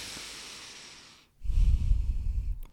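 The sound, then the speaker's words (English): A single deep breath: a long, soft, airy inhale, a brief silent pause, then a louder, rumbling, breathy exhale lasting about a second. “Now I just want you to take one big deep breath for me.”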